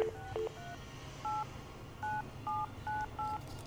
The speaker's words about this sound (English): I'm going to dial a number that's down the street. So I dialed the 7-digit number.